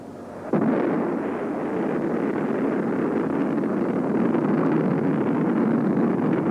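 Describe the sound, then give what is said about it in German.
Rocket launch sound effect bursting in abruptly after a quieter half second, then settling into a loud, sustained, rumbling roar that continues evenly to the end. “Der Sound ist wiederum sehr geil. Das ist der perfekte Raketenstartsound.”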